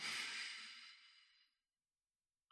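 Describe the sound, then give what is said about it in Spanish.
A deep breath drawn through the nose makes a soft, airy hiss that starts strong and fades away over about a second and a half, followed by silence. “Inhalo todo lo que puedo. Retengo. Y luego exhalo. Y vuelvo a inhalar.”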